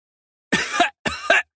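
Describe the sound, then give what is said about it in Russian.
A man coughs and clears his throat in two short, harsh, rasping bursts separated by a brief pause, fairly loud and alone against silence. “Откашливается чуть впереди Леха.”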